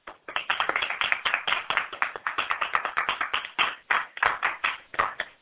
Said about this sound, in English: She's been on before, so let's give a round welcome to Shannon.